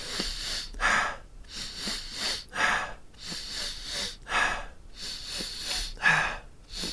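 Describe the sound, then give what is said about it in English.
Deep breathing exercise with big, full breaths in: a steady rhythm of repeated airy inhales and exhales, fairly faint, with no talk over them. “So, by the time you get to your third breath, you want to feel like you're pretty full. So, you're taking like really nice big breaths in.”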